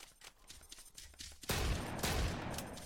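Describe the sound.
Shotgun fire in a video game comes first as a quick run of sharp shots, then breaks into a louder, dense burst of gunfire that keeps going to the end.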